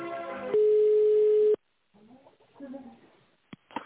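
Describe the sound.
A steady telephone tone plays while a call is transferred to a manager. It is one loud held beep of about a second, followed by a brief silence and then talk.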